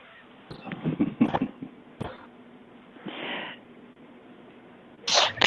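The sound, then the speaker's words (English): A person sneezes, producing sharp bursts of breathy noise with scattered rustling between them and a louder burst near the end. No one talks. “I sneezed”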